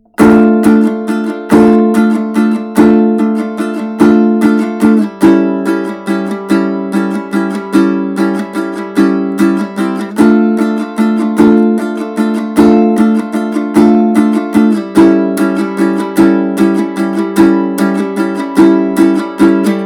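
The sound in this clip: Strummed chords of a song intro played in 3/4 time with a down-down-up-down-up pattern, many steady rhythmic strums ringing loud and alone, the chord shifting several times.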